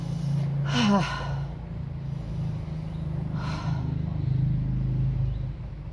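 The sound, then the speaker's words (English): Deep breathing in a guided meditation, with voiced sound on the exhale: two soft, airy breaths rise over a steady low hum that runs throughout. “Take nice deep breaths. Make some sounds on the exhale here.”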